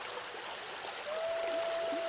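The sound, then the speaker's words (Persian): River water flowing in a soft, steady rush, faint and even throughout, with a thin sustained tone joining partway through. “با صدای رودخانه همراه شو. صدای آب آرامش تو هر لحظه عمیق و عمیق‌تر می‌کنه.”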